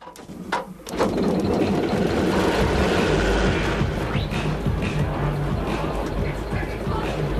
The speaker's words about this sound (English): He starts a generator.